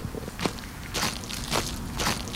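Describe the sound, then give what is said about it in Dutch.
A few slow, evenly spaced crunching footsteps of people walking away from a museum with a view over the Mediterranean Sea, each step a short gritty scrape over a low steady background. “We lopen even weg bij het museum en hier hebben we een prachtig uitzicht over de Middellandse Zee.”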